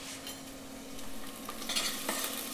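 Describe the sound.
Onions sizzle and crackle as they fry in a pan, with steady stirring and scraping against the pan throughout. The frying hiss is moderate and continuous, and no one speaks.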